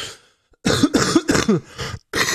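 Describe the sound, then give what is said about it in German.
Coughing: one faint cough, then a quick string of harsh, throaty coughs that are loud and close together, with no talk. “Ich habe tagelang nicht so viel gehustet.”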